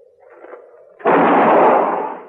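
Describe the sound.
A single loud gunshot bursts suddenly from a gun held by a woman, after a soft low murmur, and booms on for about a second before slowly fading.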